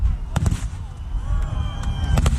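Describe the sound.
Fireworks go off at a pyrotechnic festival, the 40th edition, attended by a large crowd and using over a tonne and a half of gunpowder. A few sharp booming bursts crack over a continuous low rumble, with faint whistling tones between them.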